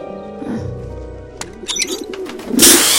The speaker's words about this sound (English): The birds land on their new flat roof.